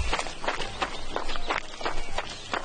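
Running footsteps of a wounded, bleeding man hurrying toward a king: a quick, steady series of dull thuds at an even pace, with no voices.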